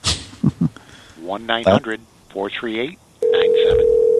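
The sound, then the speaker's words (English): Ringing tone on a phone line during a call: after several seconds of people talking, a steady, unbroken mid-pitched tone begins and holds loudly to the end. “Let's give him a call here. See if we can hear his phone ringing in the background.”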